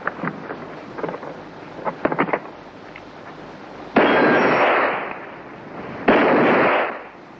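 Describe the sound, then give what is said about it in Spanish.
Two loud gunshots are fired at the padlock of a strongbox during a stagecoach holdup, each a long, harsh blast, preceded by a few faint, sharp clicks and knocks. “Dos bandidos la cogen, se alejan unos metros y disparan al candado de la caja.”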